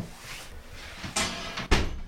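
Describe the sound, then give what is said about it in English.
A trap door is shut in the cab of a fire lookout tower: a low, dull background gives way to two short knocking impacts in quick succession, the second sharper and louder. No talking is heard. “So, I'll just shut the trap door here.”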